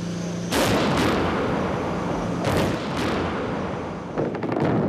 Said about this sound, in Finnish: Lokakuussa 1993 panssarivaunut tulittivat Moskovassa Venäjän tuolloisen parlamentin hallussa ollutta valkoista taloa.